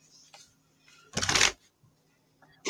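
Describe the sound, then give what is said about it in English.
Pages are ripped out of a paper planner: one short, loud tearing rip stands out against a quiet background, with a few faint paper rustles before it. “So all this can go bye-bye.”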